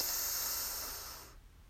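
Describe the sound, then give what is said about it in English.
A single deep inhale during a guided breathing exercise makes a steady, airy hiss that holds for over a second, then thins and trails off into quiet. “And our 3rd breath together, breathe in”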